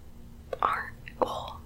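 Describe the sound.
Soft ASMR whispering: two short, breathy whispered phrases, quiet and close, with no voiced tone.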